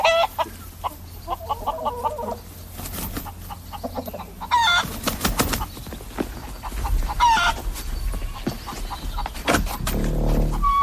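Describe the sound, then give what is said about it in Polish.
Hens cluck continuously in a henhouse holding about a hundred chickens, with many overlapping clucks and squawks of varied pitch forming a busy, fairly loud flock chorus without talk. “Tu jest kurniczek nasz. Proszę bardzo. Około 100 kurek. Kury.”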